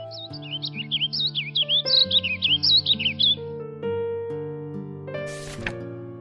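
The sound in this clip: A small sparrow chirps in many rapid, high, twittering notes over soft music, then the chirping stops and the music carries on alone.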